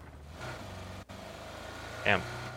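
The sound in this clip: Engine hum of a vehicle being driven in a PUBG-style shooter video game, a steady low drone that runs under talking voices for the whole stretch.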